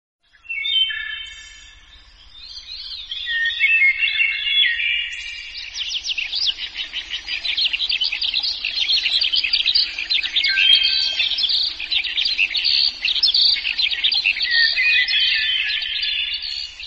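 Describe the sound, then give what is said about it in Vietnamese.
Hwamei songbird calls and other birdcalls played from a cassette player as a lure in a forest just before 5 a.m. at dawn: dense, high, warbling song runs almost nonstop after a brief dip near the start. “âm thanh líu lo của chim họa mi và âm tước từ máy cassette được phát ra dụ khị”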